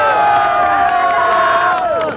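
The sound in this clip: Studio audience cheering greets a 1970s Japanese pop idol trio on a radio programme: a loud, sustained, high-pitched wash of many voices that holds steady for about two seconds before tapering off.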